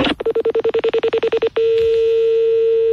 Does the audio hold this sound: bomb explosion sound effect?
no